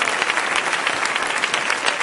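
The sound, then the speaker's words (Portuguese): A church audience applauds at a service to welcome a pastor, with dense, steady clapping from many hands, loud and continuous throughout. “pastor Edinei Saavedra, com as palmas bem alegres para o Senhor Jesus”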